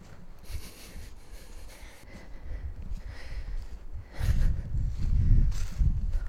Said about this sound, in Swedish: Det känns som att jag går i en skog här.